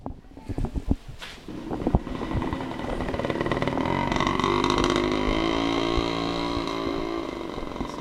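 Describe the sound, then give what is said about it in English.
Motorbike passing on a street in Melaka, Malaysia: a few scattered clicks and knocks, then a buzzing engine drone with a whining tone that builds and holds steady for several seconds. “Oh, that was just a bike that went past.”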